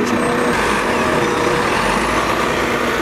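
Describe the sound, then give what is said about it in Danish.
Loud, steady city-street traffic noise in Los Angeles as a Jaguar car drives past. The broad, continuous roar holds an even level throughout, with no distinct pass-by swell standing out. “der kører der forbi mig en Jaguar”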